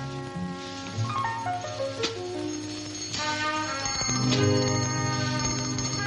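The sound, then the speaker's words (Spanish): A small handbell is rung by a man entering a room in a 1960s drama film scene. It gives a bright, continuous jangling ring over other sustained tones, with no talk. “Al poco un hombre irrumpe en la sala tocando una campanilla.”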